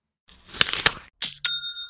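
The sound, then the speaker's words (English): Online store sale notification chime: a short burst of rattling noise, then a bright bell-like ding that rings on with clear sustained tones, heard alone with no talk. “Ooh, I love that sound. That is the sound of another sale on Shopify,”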